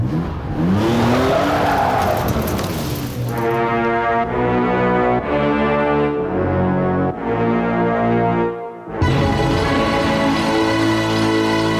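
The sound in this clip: A car speeds away at full throttle, opening with tire squeal before a loud engine roar steps through several gear changes. After a brief dip near the end, another strong engine surge follows.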